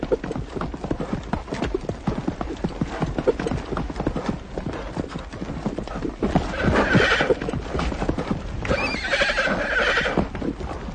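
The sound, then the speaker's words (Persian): A horse gallops with rapid, continuous clip-clopping hoofbeats that stay loud and steady throughout, and whinnies break in during the second half. “عبدالله همچنان در حال تاخت است.”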